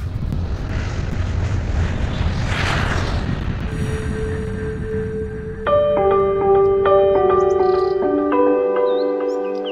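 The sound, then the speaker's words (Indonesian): An airplane flying sound effect: a broad, rushing engine roar swells and fades over several seconds, then gives way to a sequence of bright, ringing tonal notes that play over a lingering low rumble. “Sekarang kita terbang kemana, teman Nusantara? Kita terbang ke Ambon.”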